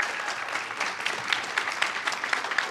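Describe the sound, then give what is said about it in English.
Audience applause welcoming a guest speaker at an evening church event, a steady, moderately loud patter of many hands clapping throughout, with occasional sharper claps standing out. “Put your hands together, please.”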